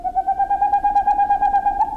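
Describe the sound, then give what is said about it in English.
A boreal owl sings a rapid, steady series of short, mellow hooting notes, about eight per second, all on one clear pitch at a moderate level over faint background hiss, with no talking. “On a moonless spring night, the songs of boreal owls echo across Alaska and Canada, and from Scandinavia to Siberia.”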